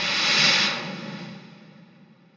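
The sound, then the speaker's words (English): A spacecraft airlock depressurizes with a loud, broad rush of hissing air that peaks in the first half-second, then thins and fades steadily over the next two seconds. “Locked and ready. All right, here we go. Depressurizing.”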